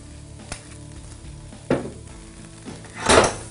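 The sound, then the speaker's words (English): Vegetables sizzle in olive oil in a hot pan: a few bursts of loud hissing as pieces hit the oil, with a sharp clink near the start and quieter frying between them. “So we'll start with the veggies. Get some heat here. All right, you can throw those in. Put a little olive oil on here.”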